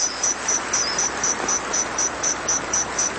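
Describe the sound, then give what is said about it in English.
Modeled calls of prehistoric insects from the dinosaur era, imagined for a forest 165 million years ago, pulse as many high, evenly spaced chirps in a steady rhythm over a constant hissing background. “Scientists have modeled the calls of insects that lived alongside the dinosaurs.”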